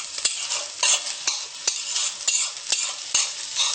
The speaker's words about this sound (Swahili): kiungo cha kwanza ni kuweka ni kitunguu. Nikoroga koroga hivyo. Ishikane na mafuta ili isungue.